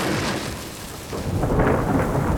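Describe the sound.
A thunderstorm with thunder and rain makes a loud, continuous rumble under a steady hiss of falling rain. The roar swells again in the second half.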